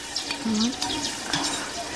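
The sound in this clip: Onions fry in a small amount of oil with a steady, crackling sizzle and occasional stirring noises, while people talk over it.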